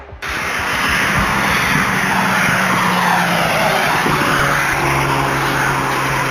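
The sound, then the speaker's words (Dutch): A Volkswagen Golf getaway car speeds along a ring road after a jewellery robbery, its engine roaring loudly and steadily with shifting pitch throughout. “Hun golf is goed te horen op hun razendsnelle vlucht op de randweg richting de N717.”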